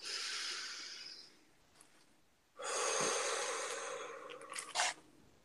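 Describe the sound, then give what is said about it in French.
Soft, airy breaths during a calm, spoken guided ritual: a breathy rush of over a second, a short pause, then a longer, fuller rush of air lasting a few seconds, quiet overall. “Une respiration.”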